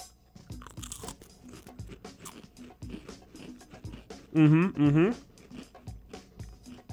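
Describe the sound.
Crisp crunching of a snack coated in garlic and salt everything-bagel seasoning, a few brittle bites heard among people talking, with one loud voiced sound partway through.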